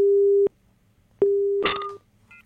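A busy tone follows a dropped phone call: two steady, mid-pitched tone bursts separated by a short gap, with a brief noisy crackle over the second burst.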